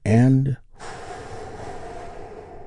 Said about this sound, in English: We do that by taking a big, deep, healing breath with me right now. Here we go.